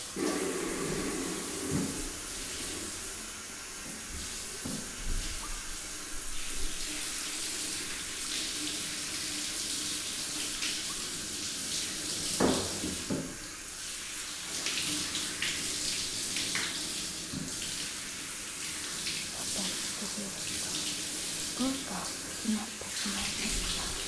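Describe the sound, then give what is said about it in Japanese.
Water rinses a hair treatment out of hair, a steady hissing flow with small splashes and a shifting texture, fairly faint throughout. “そろそろタオルを取ってトリートメントを流しますわよ。”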